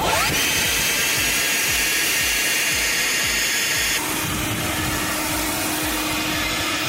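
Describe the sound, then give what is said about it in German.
Leaf blower roaring continuously, first running as normal and then with a newly developed silencer fitted; about midway the loud, steady rushing drone shifts to a slightly altered, softer-edged tone while staying almost as loud. “Nervige Laubbläser kennt ja wirklich jeder und deswegen haben sich Studentinnen und Studenten der Johns Hopkins Uni mal dran gemacht, einen Schalldämpfer zu entwickeln. Und hier kommt der Vorher-Nachher-Vergleich.”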